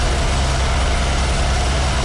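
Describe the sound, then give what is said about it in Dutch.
Steady engine roar of a Formula 1 car on soft-compound tyres on an out lap during second free practice at the 2026 Austrian Grand Prix. The droning hum is loud and continuous, with no voices. “Ook Max Verstappen inmiddels de baan op met zachte compound banden. Hij zit in een outlap.”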